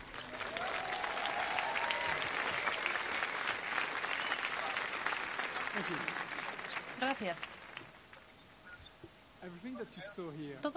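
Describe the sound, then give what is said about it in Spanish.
Audience applause at a Sony games conference at Paris Games Week 2015: dense, sustained clapping that fades after several seconds, then talk over a quieter room with a few scattered claps. “Ahora sí que aplauden. Porque son franceses. Claro. Ha salido la mujer serpiente esta. Ah, ha salido una mujer y aplauden.”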